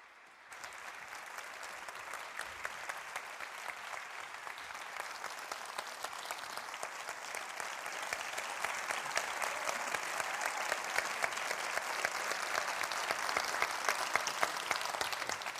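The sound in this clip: Audience applause welcomes two speakers onto the stage at an in-conversation event: sustained, dense clapping from a large crowd that swells gradually louder and continues without voices.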